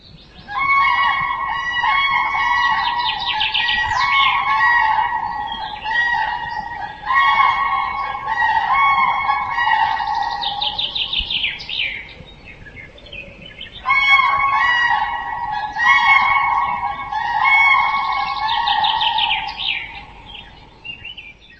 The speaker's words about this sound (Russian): Журавли.